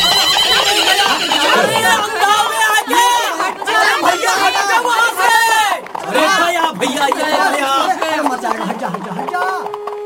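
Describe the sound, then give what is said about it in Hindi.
A horse neighs and whinnies while out of control in a street, mixed with loud, excited crowd chatter and shouting voices throughout. “देख नहीं रहा, घोड़ा बेकाब हो गया है, हटो हटो हटो सब, हट जाओ यहाँ से।”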